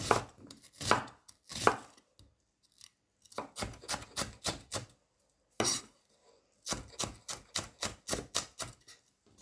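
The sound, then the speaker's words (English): A knife chops raw onion in many crisp, quick, rhythmic cuts. The cuts come in several bursts separated by short pauses, loud and clear, with no talk. “you could like kind of chop it smaller to get more taste out of it.”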